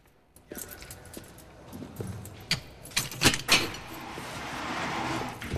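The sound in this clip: Keys jangle and metal clicks as a cage door in a caged interview area is unlocked and opened. A few sharp rattles and clanks stand out over a steady, noisy background.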